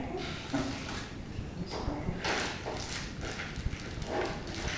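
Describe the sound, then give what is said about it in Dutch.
A voice imitates a horse's clip-clopping hooves with a rhythmic run of many sharp clicks and soft knocks over a low, breathy background, steady in level throughout. “Is dat een paard doen? Een paard doen, zijn we nu. Een paard doen, ja.”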